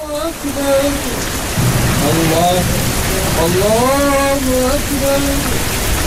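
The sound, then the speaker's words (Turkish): Heavy rain pours steadily and loudly from a thunderstorm downpour with wind in Mecca. Continuous voices rise and fall in pitch over the rain. “Mekke'de gök gürültülü sağanak yağışa rüzgar da eşlik etti.”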